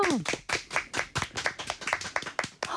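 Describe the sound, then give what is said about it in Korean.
Clapping from an audience after a sung performance, a steady series of many sharp, fairly loud claps falling in an even, rhythmic pulse. “와, 박수 다시 한번 갈게요.”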